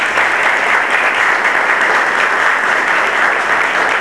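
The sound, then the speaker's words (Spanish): Applause from an audience welcoming a researcher at a talk, dense steady clapping filling the whole stretch at a constant loud level with no voices over it. “le damos un aplauso”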